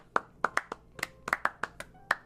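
Light applause from a small poetry-reading audience welcoming a reader: sparse, uneven hand claps, each sharp and distinct, scattered across about two seconds rather than a continuous roar.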